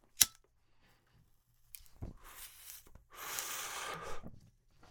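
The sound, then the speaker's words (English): A lit joint of Bold Root Beer Float cannabis being drawn on: a sharp click, then a soft, breathy inhale in a couple of stretches, the second longer and louder. “Oh, that's a nice smooth initial draw. Not feeling any harshness there.”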